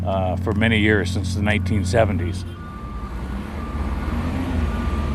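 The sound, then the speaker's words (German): Forklifts at a quay carry large yellow fish boxes from the boats into a fish factory, giving off steady, high repeating reversing beeps after a man speaks over engine noise. “In großen gelben Boxen wird der Fisch mit Gabelstaplern von den Booten am Kai in die Fischfabrik gefahren.”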